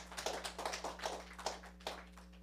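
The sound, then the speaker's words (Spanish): Faint audience clapping during a church sermon, with claps falling in a steady, even beat over a low electrical hum. “Dale un aplauso.”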